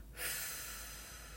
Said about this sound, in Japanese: 吐きましょう。ゆっくり吐く。